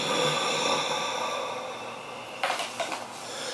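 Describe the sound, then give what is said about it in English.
A voice imitates a low guttural breath heard from a presence at the top of a hallway staircase, a drawn-out rasping exhale that slowly fades, followed by a few faint clicks. “can then hear it give like this low guttural breath, like,”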